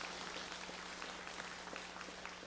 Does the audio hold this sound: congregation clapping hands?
yes